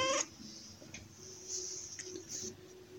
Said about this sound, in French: me perturbe cette chatte.